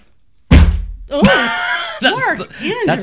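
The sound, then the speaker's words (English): A heavy book drops to the floor with a single loud, deep thud, after which people start talking. “That's the sound of the book dropping to the floor.”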